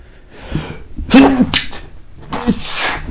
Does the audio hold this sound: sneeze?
yes

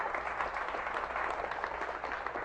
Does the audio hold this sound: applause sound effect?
yes

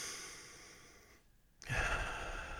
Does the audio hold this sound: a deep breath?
yes

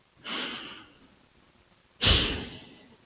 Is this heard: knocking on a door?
no

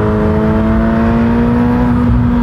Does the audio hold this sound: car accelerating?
yes

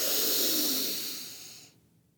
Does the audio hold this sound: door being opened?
no

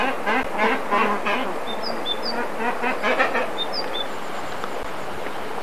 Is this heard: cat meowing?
no

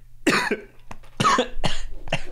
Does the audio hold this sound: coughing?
yes

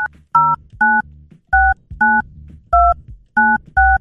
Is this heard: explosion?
no

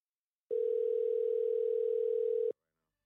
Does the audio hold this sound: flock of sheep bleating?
no

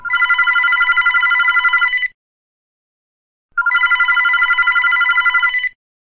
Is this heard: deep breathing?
no

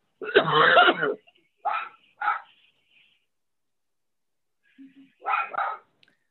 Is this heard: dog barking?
yes

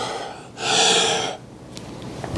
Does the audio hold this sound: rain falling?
no

